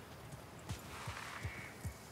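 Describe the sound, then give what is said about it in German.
Hoofbeats of a show-jumping horse going over a fence, four dull thuds at a fairly even pace, faint against a quiet background. “Schon wieder über den Zaun? Ist halt ein Springpferd.”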